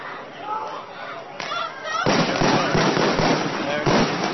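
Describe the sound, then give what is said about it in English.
Rubber bullets fired by St. Louis County police at a crowd as their line advances. Several loud, sharp pops burst out over shouting voices and crowd noise. “There it goes. There. Now firing onto the crowd. Out! Shit! They are firing rubber bullets.”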